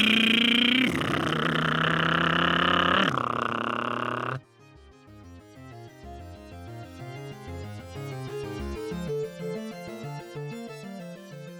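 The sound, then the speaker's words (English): A man imitates a motorcycle engine with his mouth, a loud buzzy, revving drone that shifts pitch for about four seconds. It cuts off abruptly and gives way to quieter melodic music. “an adult man making motorcycle noises with his mouth”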